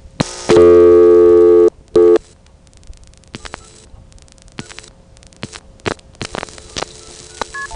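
Telephone tones and switching clicks as a Jamaican number is dialed through the Kingston crossbar 5 exchange: a long buzzy tone, a short repeat of it, then a scattered series of sharp clicks.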